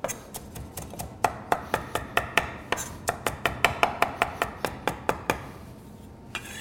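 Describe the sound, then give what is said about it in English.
A knife taps rapidly against a cutting board in a quick rough chop of about a cup of cilantro, leaves with stems, for black bean burgers. Many sharp, fairly crisp knocks in an uneven, brisk rhythm, with a short pause near the end. “And if you see here, I have about 1 cup of cilantro, and I have some of the stems on it too. Cilantro is a type of herb where you can use the stems to add texture and flavor, so no need to just use the leaves. And I'm just going to do a quick rough chop on this.”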